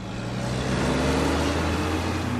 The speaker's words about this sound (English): On a dusty four-lane highway a few miles from downtown Rialto, tractor trailers stream into a sprawling FedEx warehouse.